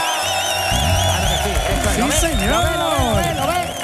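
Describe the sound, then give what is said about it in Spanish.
A live studio audience making noise and cheering, a steady wash of crowd sound with several voices shouting over it throughout. “Tenéis que venir y hacer ruido cuando vengáis, como va a hacer este público que tenemos esta tarde aquí. ¡Vamos!”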